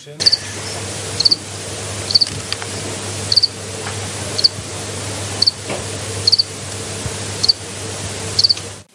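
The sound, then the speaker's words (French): A cricket chirps in about nine short, high, evenly spaced bursts over a steady low background hum. “Quelqu'un a trouvé ? Oui, c'est le grillon.”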